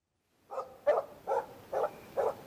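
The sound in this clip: A dog barking in snow: five rough barks in an even rhythm, moderately loud and alone, with no voices.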